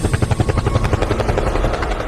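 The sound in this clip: Helicopter sound effect in a song, a loud, steady, fast chopping of rotor pulses that runs through the whole clip.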